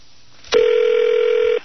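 A telephone ring tone heard down the line of a prank phone call: one steady, mid-pitched electronic tone lasting about a second, heard alone with no talking.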